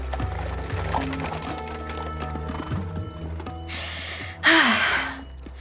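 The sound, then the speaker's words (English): Hooves clop as a horse-drawn chariot arrives, with a sharp horse neigh near the end over a low, steady drone. “A chariot arrived at the front to take them to the edge of the city.”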